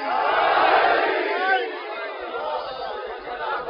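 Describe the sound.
A crowd at a religious gathering shouts in unison in response to the Nara-e-Haidari call. The loud massed roar swells, then gradually fades.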